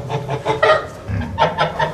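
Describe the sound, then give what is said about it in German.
Anxious, stirred-up geese in a flock call over and over in short, harsh, nasal bursts, the cackles coming in quick overlapping runs at a fairly loud level, with no voices among them. “Die sind ja jetzt ängstlich und dann gehen wir zusammen. Ist ja, eine Gans ist ja ein Herdentier. Die leben ja in einer Herde.”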